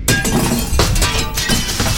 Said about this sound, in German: Oh je, jetzt hat er voll ins Fenster getroffen.